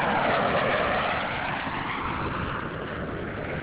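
A space shuttle orbiter rolls out on a runway at Kennedy Space Center after nose gear touchdown, with its drag chute deployed. A steady, dense rushing roar is loudest at first and eases slightly, with no voices.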